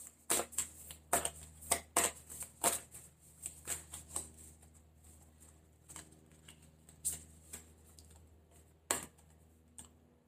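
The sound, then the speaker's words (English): Cards being shuffled and an oracle card drawn: many quick, crisp snaps and riffles in uneven bursts, fairly faint and with no talking. “And then I'm going to pull an oracle card too.”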